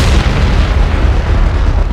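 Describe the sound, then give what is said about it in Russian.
Deafening explosion of an erupting volcano: a loud, sustained low boom and roar that fills the whole clip with dense rumbling and no quiet gaps. “как раздался оглушительный взрыв”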